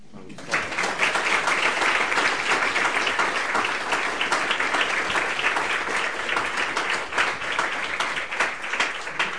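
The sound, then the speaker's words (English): Audience applause greets the Foreign Minister of Finland as he is welcomed as guest speaker: dense, steady clapping from many hands that sustains at an even level for about nine seconds. “can you please join me in giving a very warm welcome to our guest speaker, the Foreign Minister of Finland, Dr. Erki Tuomioja.”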